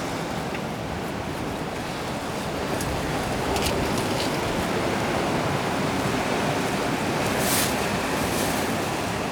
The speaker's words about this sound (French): Le son de la mer, c'est un peu comme la neige.